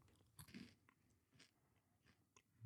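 Dry, nutty-tasting dead insects, gathered over the summer, are bitten and chewed, giving several quiet, crisp crunches at irregular intervals.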